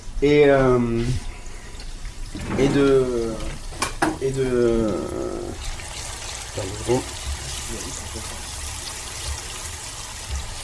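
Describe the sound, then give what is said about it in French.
Onions slowly frying in a pan give a soft, steady sizzle that runs under a person talking and then continues on its own. “ça, il faut que ça cuise super longtemps, hein. Les oignons, en fait, tu les fais confire, et quand tu rajoutes tes épices, après ça va commencer à faire une espèce de pâte.”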